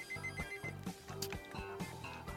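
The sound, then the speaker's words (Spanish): A telephone rings in repeated short electronic bursts, a steady pulsing pattern with no voices over it. “Ahí están llamando otra vez. ¿Por qué putas madres siempre tienen que llamar? ¡Cuando estoy en programa!”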